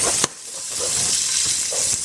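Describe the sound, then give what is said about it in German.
Steady sizzling hiss of about two teaspoons of sugar melting and caramelizing in a hot pan, broken by one sharp tap near the start. “karamellisiere ich das mit etwas Zucker. Warte, bis der schmilzt.”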